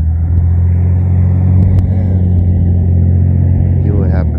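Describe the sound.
A loud car exhaust rumbles in a deep, heavy drone that holds steady from start to finish.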